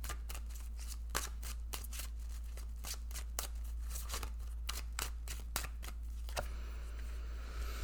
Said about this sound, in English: Okay, so let's go ahead. We'll pull some cards.